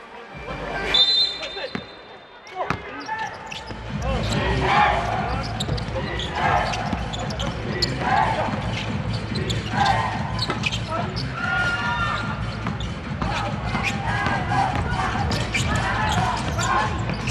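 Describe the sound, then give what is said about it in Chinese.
A basketball being dribbled on court during a game, its repeated rhythmic bounces running steadily under continuous talking. “两个人人缝当中还是要运球。”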